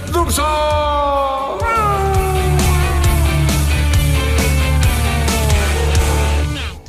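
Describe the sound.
A person imitates a cat with a drawn-out, whiny meow. The voice wavers and slowly slides downward in pitch over several seconds, loud and nasal, with a few brief breaks and a low steady sound underneath.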